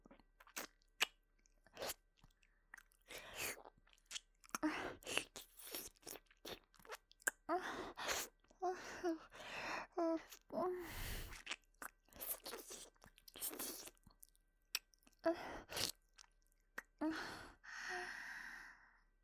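Wet mouth chewing and nibbling imitating eating an ear: many irregular crunchy bites, smacks and clicks mixed with breathy sighs, fairly close and soft, with no talk.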